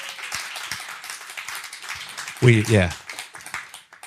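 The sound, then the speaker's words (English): Congregation applause for an elderly churchgoer: scattered claps under a speaking voice, with a brief louder vocal burst midway. “Can we give him one more round of applause?”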